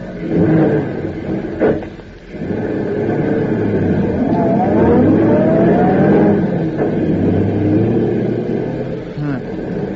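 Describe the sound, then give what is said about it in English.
A car drives across a field, its engine giving a rough, sustained drone that swells and revs through the middle, with voices heard partly over it. “Drive across that field”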